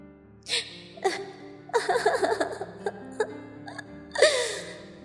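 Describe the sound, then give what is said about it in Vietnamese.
Ghostly crying and shrill laughter come as a few breathy vocal bursts with wavering pitch, the middle one a rapid, chattering run, over a low, sustained drone. “Trong gió còn mang theo tiếng khóc, tiếng cười rinh rít ma quái.”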